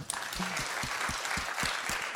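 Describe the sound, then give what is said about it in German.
Applause from a live show audience, a fairly faint, steady patter of many hands clapping with soft low thumps recurring at a regular pace. “Applaus dafür bitte.”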